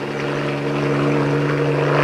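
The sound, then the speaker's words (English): A helicopter lifting off and flying away gives a loud, steady droning rotor and engine hum, continuous throughout and swelling slightly toward the end. “She waves back as the helicopter lifts off, ruffling her straight hair. As the helicopter flies out of sight, her smile fades.”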